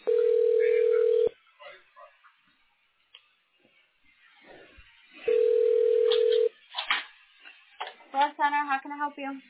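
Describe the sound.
Telephone tones on a call after an automated phone menu: two long steady mid-pitched tones separated by a quiet pause, followed by a person talking.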